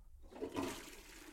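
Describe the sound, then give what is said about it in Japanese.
A toilet flushes after a brush is set down: a brief hush gives way to a faint, swelling rush of water that carries on to the end. “ブラシは置いて、トイレ流して、”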